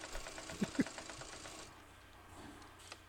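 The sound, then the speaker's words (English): Sewing machines that make denim shirts give a faint, rapid mechanical clatter with a few sharper knocks. The clatter stops partway through, leaving quiet background hiss. “Those are sewing machines, Jesse. What do they do? They make clothes.”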